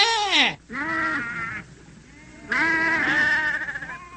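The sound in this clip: Sheep bleating, from a flock of about a hundred: three loud bleats, the first falling in pitch, the last long and quavering toward its end.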